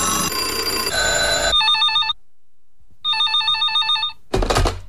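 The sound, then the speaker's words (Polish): A newsroom telephone at a radio station rings with a loud electronic warbling tone in two bursts separated by a short silence. A brief musical jingle plays before it, and another short burst of sound follows. “Zadzwoń do nas. Nasz redakcyjny telefon czeka.”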